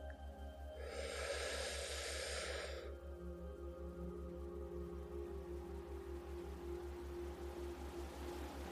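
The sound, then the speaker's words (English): A single deep breath drawn in during a guided meditation, a soft airy hiss lasting about two seconds, then fading into a faint, steady low hum. “Let's go ahead and take another deep breath in.”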